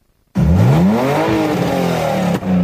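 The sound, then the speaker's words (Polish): A car engine revs hard at a motoring enthusiasts' rally on the grassy grounds of a technical university in Lublin. It bursts in loud after a moment of silence, climbs in pitch, then holds steady with a brief dip near the end. “Na zielonych terenach Politechniki słychać było pisk opon i rek silników.”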